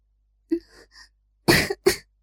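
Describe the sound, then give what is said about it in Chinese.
Two short, soft coughs from a woman, slightly hoarse, following a few faint breathy vocal sounds. “紫幽兰轻咳了两声，声音中似带着些许嘶哑”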